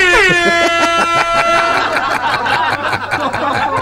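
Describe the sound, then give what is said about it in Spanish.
A radio host sounds an air horn in one loud, sustained, brassy blast with a rapidly pulsing texture that fills the whole clip. “Tocame el pito ahí.”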